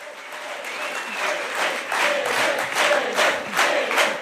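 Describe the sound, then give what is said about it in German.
Delegates applaud loudly at a special Die Linke party conference as the winner of the Berlin election is greeted, a dense, frenetic wash of clapping that swells in waves and continues throughout without pause. “Frenetisch wird Elif Eralp, die Siegerin der Berlin-Wahl, auf dem Sonderparteitag der Linken begrüßt”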